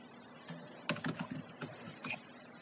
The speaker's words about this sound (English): and just type up my new email address here, actually. Okay. I'll just type it out for you.